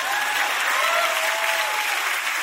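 An audience claps on cue: a dense, loud, steady wash of applause that holds evenly for the whole stretch without pauses.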